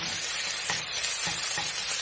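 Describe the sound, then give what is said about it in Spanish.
Chicken pieces brown in a hot casserole pan with a dense, continuous sizzle. Faint stirring scrapes surface now and then, and the level stays steady and even throughout. “esperamos a que se caliente. Y ahí agregamos el pollo y lo dejamos 5 minutos hasta que esté doradito.”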